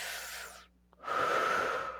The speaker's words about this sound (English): right before I dropped in for my run, I would take really slow, deep breaths. And I would just,